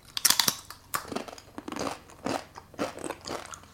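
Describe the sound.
Crunching on mystery potato or plantain chips: many crisp, crackling bites and chews follow in a quick, uneven rhythm with no talking.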